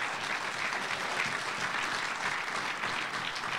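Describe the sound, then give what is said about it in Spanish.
An audience applauds during a sermon, giving the Lord a strong round of clapping. The clapping is dense, sustained and even, with no breaks and no clear voices over it. “Dele fuerte ese aplauso al Señor.”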